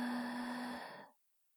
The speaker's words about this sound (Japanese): 涼しい息が眉間に当たる。ふぅ。ふぅ。